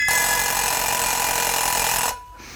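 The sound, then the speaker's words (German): An alarm clock rings with a harsh, dense metallic clatter, loud and unbroken for about two seconds before cutting off abruptly. No voices are heard. “Der Wecker.”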